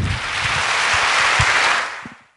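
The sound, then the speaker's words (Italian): Audience applause at the close of a cultural talk at the Rimini Meeting, a thick, steady patter of many hands that holds strong before tapering off into quiet at the end. “Era applauso al termine del primo incontro di cultura al meeting di Rimini”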